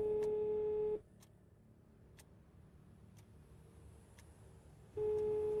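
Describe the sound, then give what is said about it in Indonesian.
A telephone call is placed and the line rings out: a steady beep about a second long, a quiet pause of roughly four seconds with faint ticks, then the same beep begins again. The whole is faint. “coba telepon Rika dulu lah”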